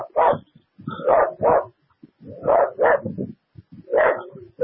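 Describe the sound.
Dog barking in a loud run of short, rough barks that come in uneven clusters with brief pauses between them.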